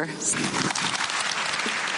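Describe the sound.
Applause from the women attending a summit: dense, steady clapping that holds at an even loudness for about two seconds, with voices mixed in underneath.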